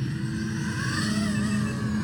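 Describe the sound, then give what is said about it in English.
Drone motors spin up as the aircraft takes off at an airfield: a steady, fairly faint mechanical buzz with thin whining overtones that shift slightly in pitch partway through. “Guys, drone taking off. Okay. Motors are starting, it says on the screen.”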